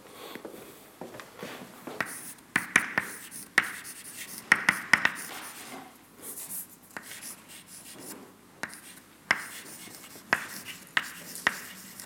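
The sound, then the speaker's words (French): A force balance equation is written out by hand as a string of faint, scratchy strokes and sharp taps, irregular in rhythm, with no talking. “Après, pour préparer la suite, je vais écrire l'équilibre des forces.”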